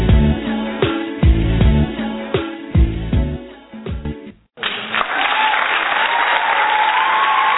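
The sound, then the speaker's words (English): Studio audience applause bursts in after a few seconds of rhythmic music with a heavy beat, then continues as a dense, steady clapping crowd to the end. “Yeah, you better put your hands together.”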